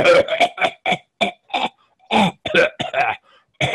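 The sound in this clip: Harsh coughing from a longtime cigar smoker comes as a rapid fit of many hacking bursts in an uneven rhythm, with short gaps and a faint final cough.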